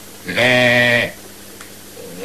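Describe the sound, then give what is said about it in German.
A human voice imitates a sheep's bleat: one sustained, nasal, wavering bleat lasting under a second, fairly loud, then quiet. “Ja, also, jetzt ein Schaf.”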